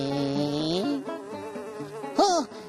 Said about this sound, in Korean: 아, 똥파리 비행사님이 태워주셨어요.